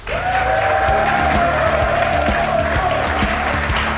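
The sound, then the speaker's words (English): Applause and cheering from a studio audience greeting two sporting guests on a show: a loud, continuous burst of clapping and crowd noise over a steady rhythmic beat. “Please give it up for Johnny Marta and Joe Schmidt.”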